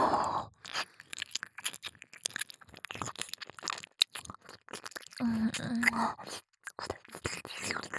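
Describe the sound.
Close ASMR mouth sounds of nibbling on an ear: wet chewing, crunching and little bites in uneven bursts, with soft whispering between them.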